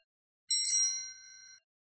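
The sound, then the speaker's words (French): A small bell signalling a page turn in a read-along story: a single bright ding that rings on and slowly decays over about a second, heard alone. “Tu tourneras la page quand tu entendras la petite clochette.”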